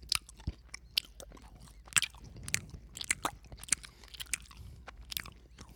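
Loud, wet chewing and crunching of lemon-flavored hard candies, with many irregular bites and smacks throughout and no talking.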